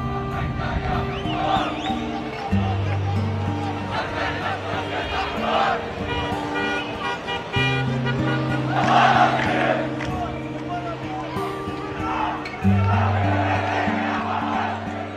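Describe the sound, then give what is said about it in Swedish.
Large crowds gather to welcome released Palestinian prisoners home, a loud, continuous mass of voices with shouted cries and whoops surging throughout, over steady low droning tones. “Men trots det samlas stora folkmassor för att välkomna de släppta palestinierna hem.”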